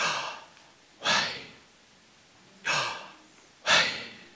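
Slow human breathing, in and out, comes as a few airy, breathy whooshes separated by quiet pauses.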